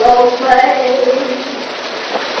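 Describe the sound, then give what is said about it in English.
A shower runs as a loud, steady rush of falling water spray, with a wavering, voice-like tonal line drifting over it like someone singing in the shower. “Later, he shaves at the mirror while Muriel takes a shower.”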